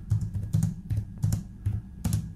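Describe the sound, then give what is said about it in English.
Someone types on a computer keyboard during an online lecture. Quick, fairly faint key clicks come in irregular clusters, one after another, with no voices. “Is that why he was drumming? Yeah, well, no, that was him typing on the keyboard.”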